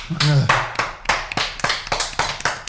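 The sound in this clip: A few people clap in a studio, with brisk, uneven hand claps repeating for about three seconds. A short voiced whoop rises near the start.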